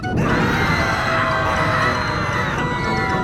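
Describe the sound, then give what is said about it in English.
A studio audience cheering sound effect on a children's game show, played as a dense, continuous roar of crowd noise with bright whoops, staying loud and unbroken for about three seconds. “in the studio today is our sound effects robot, Lisa, whose name stands for Live in Studio Audience.”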